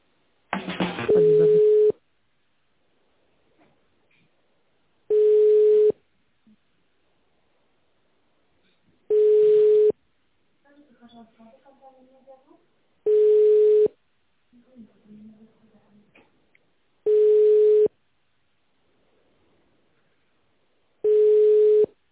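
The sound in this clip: A telephone plays an on-hold tone: six long, steady, identical beeps repeat about every four seconds with silence between them, and faint rustling and murmur sit in the gaps.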